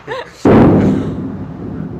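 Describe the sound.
Artillery fire shelling a town: one heavy, loud blast cuts in after a brief voice, then a long, broad rumble carries on, fading slowly but not stopping.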